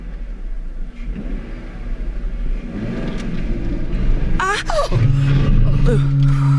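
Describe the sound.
A car drives off. A low rumble builds gradually before the engine revs up, turning louder and more tonal in the second half.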